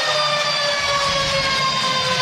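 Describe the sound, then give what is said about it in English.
A hockey arena's goal siren blares at ice level before a crowd of about 7,500, one loud, steady horn tone held without a break for the whole stretch. “As we get the siren sounded by Boyd Devereaux down at ice level.”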